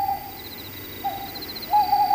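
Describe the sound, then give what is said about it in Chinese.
Three owl hoots sound outside a door, each a clear, mid-pitched, drawn-out call spaced roughly evenly about half a second apart, fairly loud against quiet background hum. “正说着，门外又传来三声猫头鹰叫”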